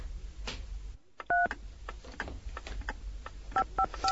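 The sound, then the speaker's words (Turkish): Telephone being dialled in a Turkish radio drama: a handful of short, bright two-tone keypad beeps, one pair of tones early and a quick run near the end, over a low rumbling, clattering background with no talk. “Ev sahibi tam gelecek zamanı buldu. Yengini arayayım.”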